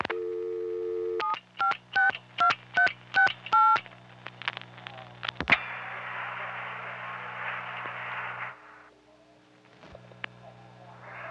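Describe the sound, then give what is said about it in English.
Telephone dialing to a vacant number: a dial tone, then seven quick touch-tone beeps in an even rhythm, followed by a few clicks and a stretch of hissing line noise that drops to near quiet. “Now dialing a 756 vacant number, 2368.”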